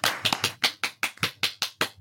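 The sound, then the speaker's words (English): Audience applause for a guest expert at the end of a talk: many steady, evenly spaced claps in a brisk rhythm at a moderate level, with no voices. “A big round of applause for Dr. Christine”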